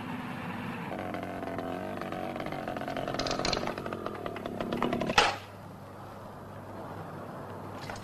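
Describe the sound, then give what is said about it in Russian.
A small moped engine revs with a buzzing, tonal drone that climbs in intensity, then ends in a sharp burst and drops to a low hiss. “Разгоняет мопед, садится на него.”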